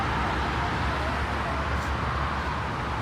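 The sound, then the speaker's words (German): Steady roadway rumble on a city street as an M21 line bus approaches, a continuous dense noise that stays at an even loudness with no distinct separate events. “Da kommt irgendwas. Da kommt ein Bus, Uke. Uke, da kommt ein Bus.”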